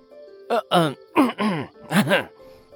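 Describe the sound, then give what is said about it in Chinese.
Rough, voiced throat-clearing coughs in a short burst of a few harsh, throaty pulses in quick succession, moderately loud and alone with no other sound around them. “天尊赶紧咳嗽两声”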